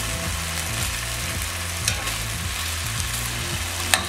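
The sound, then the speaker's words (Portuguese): Food sizzles in a frying pan after being flipped to cook on the other side. A steady, dense crackling hiss continues throughout, with a couple of faint taps. No voices. “tá fritinho desse lado, vou virar, deixar cozinhar do outro lado.”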